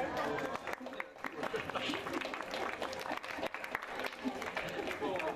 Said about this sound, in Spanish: le vamos a hacer un aplauso a Virgilio.